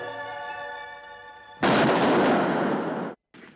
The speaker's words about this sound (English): Their lips meet again and the gun goes off in her hand.